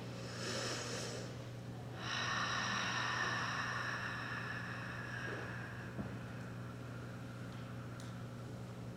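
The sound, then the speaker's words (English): A group takes a deep collective breath together during a spiritual talk: a short airy burst, then a longer, steady soft rush of breath, faint and without speech. “let's take a deep collective breath together.”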